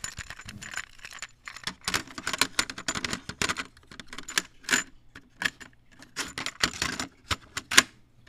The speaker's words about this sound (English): So let me just put this tape in.